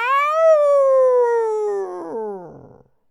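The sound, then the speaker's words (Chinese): A human voice imitates a wolf howl: one long, loud sustained howl that rises slightly at first, then slides steadily down in pitch and breaks into a rough, breathy trailing end. “可猛然间就听见一声狼嚎啊”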